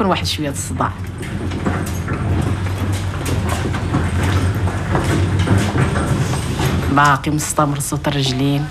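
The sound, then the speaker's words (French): A horse-drawn carriage passes by, hooves clip-clopping amid a dense, continuous street noise with voices mixed in. “La calèche qui passe.”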